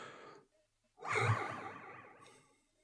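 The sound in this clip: A person's faint labored breathing: a short breath, a pause, then a longer, rasping, sigh-like exhale that swells and slowly trails off.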